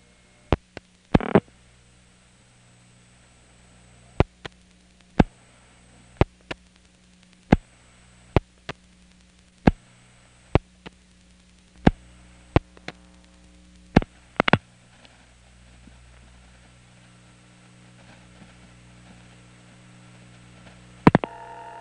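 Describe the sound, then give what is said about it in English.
Sharp relay clicks from a Crossbar No. 5 telephone switch's line link pulsing as it dials into a pager system: a long series of brief, roughly evenly spaced bursts over a steady low hum and faint line static. “After the last digit, you'll hear the line link pulsing arrangement sound, that sort of blip to clip, and then at that point the crossbar 5 is dialing into the pager system, and you'll hear it start to ring, but I'm going to hang up pretty quick.”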